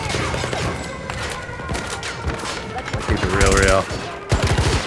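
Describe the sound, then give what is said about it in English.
MP9 submachine gun firing in a video game, rapid crackling bursts of automatic fire that swell louder toward the end, with a player's voice heard in between. “Ammo. Dude, the ammo goes real fast. This MP9 is sick.”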